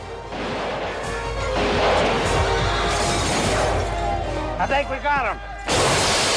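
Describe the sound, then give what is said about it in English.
Gunfire from two cowboys in a Western film shootout: a few loud, sharp bursts and crashing hits over a steady low rumble, with voices mixed in. “Two cowboys fire at him.”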